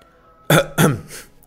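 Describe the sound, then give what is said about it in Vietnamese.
A dry cough from an old eunuch, imitated by a voice: two short, harsh, raspy bursts in quick succession, then a fainter trailing third, alone against near silence. “Lão thái giám ho khan cắt ngang nhắc nhở”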